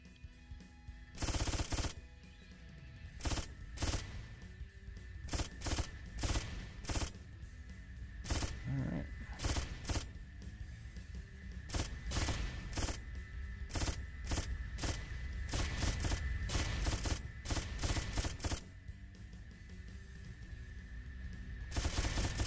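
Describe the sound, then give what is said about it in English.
Gunfire rattles in a shoot 'em up video game where rockets rain down and the gun slows as bullets are used. Many sharp, rapid shots come in dense, irregular bursts throughout. “The catch is that your gun will shoot slower and slower the more bullets you use, and the rockets come down faster and faster.”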